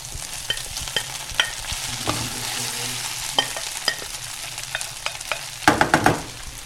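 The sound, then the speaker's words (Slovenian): Onions fry in a pan for a mustard onion sauce. Soft, steady sizzling runs under a series of sharp scraping and clinking stirring strokes, with a quick cluster of strokes near the end. “Tako, zdaj dodam torej še ostalo čebulo.”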